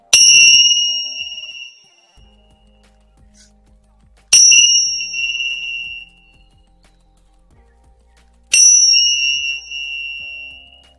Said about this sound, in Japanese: それでは一旦ね、このリーディング閉じさせていただきます。チベタンベル鳴らしますね。